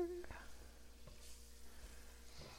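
Pancake batter frying in a buttered pan gives a faint, steady sizzle, with a few light knocks over the continuous hiss.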